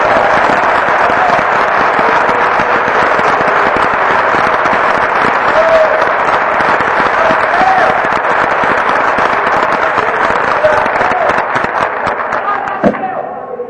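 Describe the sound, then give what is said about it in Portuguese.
Congregation applauding for Jesus during a church service, a loud, dense roar of many hands clapping that holds steady for over twelve seconds before tapering off at the very end. “Deus está aqui, dá uma salva de palmas para Jesus”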